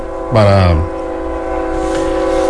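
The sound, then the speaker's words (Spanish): A train horn sounds as a train passes: one loud, harmonic blast lasting about half a second, followed by a steady, fainter hum that carries on to the end. “ahí va el tren. Deja que pase la bestia. Sí, que pase la bestia.”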